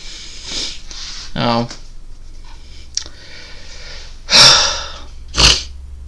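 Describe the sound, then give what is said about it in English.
A person breathes heavily while catching their breath: a few loud, gasping breaths, one of them voiced, separated by quieter pauses. “Sorry, I'm trying to catch my breath now. That feels better.”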